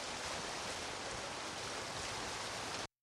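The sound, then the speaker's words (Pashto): Steady, loud rushing of the Swat River's flowing water and waves beside a riverside park. A dense, unbroken roar holds throughout and cuts off briefly just before the end. “د سواد د سیند د یخو هواګانو او د سیند د چپو د خوندور شور نه مزه اخلي”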